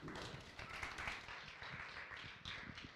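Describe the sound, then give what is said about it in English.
A church audience claps to welcome a pastor: many hands applaud in a dense, steady wash that holds at an even level throughout, with no talk over it. “Brothers and sisters, please be seated and let us put our hands together to welcome Pastor Lee Kai.”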